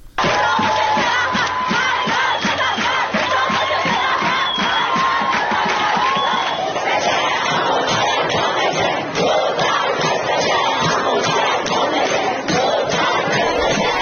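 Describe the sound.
A crowd of students at Alzahra University chants protest slogans in unison, a loud, rhythmic mass of voices pulsing with regular shouted beats throughout.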